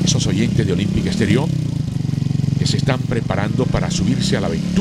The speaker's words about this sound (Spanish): Se enciende la moto. Esa motocicleta puede ser suya.